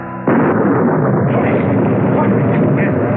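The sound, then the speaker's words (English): A sudden burst of fire bursts up and settles into loud, sustained roaring flames that hold steady for the rest of the moment, a dense, rushing crackle with no voices. “Behold the fire, the consuming flames that Prometheus...”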